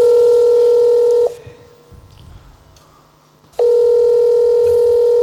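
Telephone dial tone while placing a call: a loud, steady electronic tone cuts off into about two seconds of near silence, then returns just as loud.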